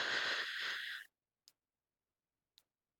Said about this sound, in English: now I want you to stop tapping and take a very deep breath all the way in for 3 seconds.